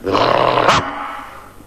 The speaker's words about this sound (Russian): С просонок дежурный бульдог рявкнул так, что под лисой со страха оказалась лужа.